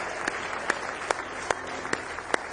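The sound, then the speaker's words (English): A church audience claps in praise, a steady, even rhythm of crisp hand claps about two or three per second, with a dense wash of clapping underneath. “Go ahead and give Him a real good hand clap of praise tonight.”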